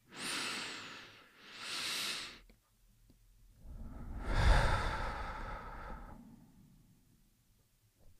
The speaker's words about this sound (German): Und jetzt nehmen wir drei tiefe Atemzüge gemeinsam durch die Nase ein und durch den Mund aus.